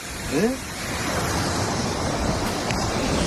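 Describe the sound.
Sea waves wash onto a beach in Dénia, Spain, with a continuous broad hissing rush of surf that holds steady throughout.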